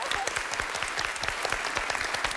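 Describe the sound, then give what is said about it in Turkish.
An audience applauds on a quiz show with many rapid claps in a dense, steady patter that stays loud and even throughout. “Alkışlıyorum.”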